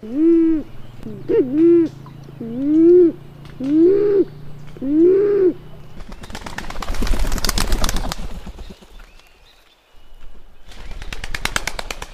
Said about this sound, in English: It's a band-tailed pigeon, and I chose it for this week's sound because I've been hearing them a lot lately, as they are now low in the canopy, feeding on ripe red elderberries.